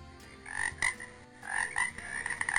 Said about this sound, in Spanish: ¡Ojo con los sapos! ¡Están en todo el lado!